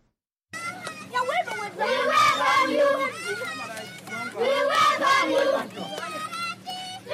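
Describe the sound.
A group of children in rebel-held Gonyil, South Sudan, loudly call out together to welcome a visiting U.S. senator, their massed voices swelling in two strong surges.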